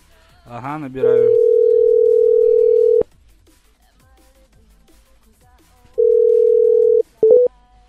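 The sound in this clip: A telephone dial tone plays as someone dials a number. It sounds as one long, steady, mid-pitched tone, then a second shorter stretch, followed by a couple of brief tone bursts. A voice is heard briefly before the first tone.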